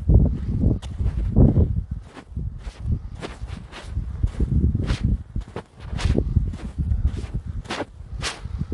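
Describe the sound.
Footsteps of someone walking in shoes across very wet ground make a long, steady series of soft, heavy thuds with crisp scuffing on each step.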